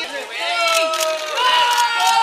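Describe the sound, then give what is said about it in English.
Excited fans shouting as a pop star leaves a talk show appearance, several raised voices overlapping in loud, continuous calls with rising and falling pitch. “It's Billie Eilish, and some are shouting in excitement as she stops to chat and give hugs.”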